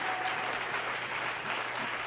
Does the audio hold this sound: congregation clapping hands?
yes